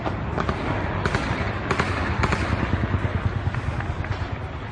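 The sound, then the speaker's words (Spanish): Gunfire crackles during nighttime armed clashes involving rebel soldiers in an attempted military coup in Turkey, a dense, continuous barrage of sharp cracking reports layered over a loud, rough roar. “de una noche en que los militares levantados en armas han protagonizado enfrentamientos. Este era el sonido de esos enfrentamientos.”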